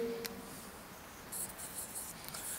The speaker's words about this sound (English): Let me just write that down for you.